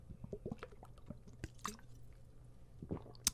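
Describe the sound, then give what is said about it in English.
Someone drinking a glass of water: a few faint wet gulps and swallows with small liquid clicks and drips, quiet and irregular, with no talking. “But first, a drink of water.”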